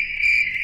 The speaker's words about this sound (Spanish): Este es el sonido de los grillitos.